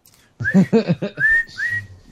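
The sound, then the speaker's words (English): High whistle notes sound loud and alone, a few short tones with two sliding upward, following a quick run of harmonic, voice-like warbles at the start. “Where's the whistles?”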